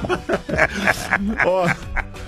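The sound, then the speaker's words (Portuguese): A cotton candy street vendor's squeeze horn honks in several short, quacking, nasal bursts amid people talking and laughing. “Oxi, agora veio, pronto, agora vem a buzina do algodão doce.”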